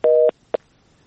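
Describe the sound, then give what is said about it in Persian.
Telephone disconnect tone after a call drops: one steady, sustained tone followed by a single short beep, clear and alone with no voices. “با تاسف تماسشان قطع شد.”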